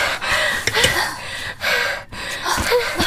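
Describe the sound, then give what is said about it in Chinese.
Several people pant and gasp heavily after holding their breath while hiding in a cramped wardrobe, a few sharp breathy gasps and snorts among ragged, uneven breathing. “四人出来后都纷纷大喘气，他们都被憋得够呛，不只是因为衣柜里空间逼仄，而是精神紧张时忘记呼吸。”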